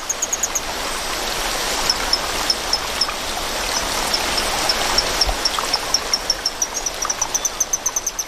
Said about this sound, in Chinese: 水流的声音还是太大了